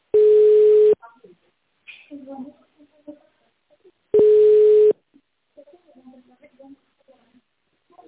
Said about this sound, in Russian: Соединение установлено. Пожалуйста, подождите.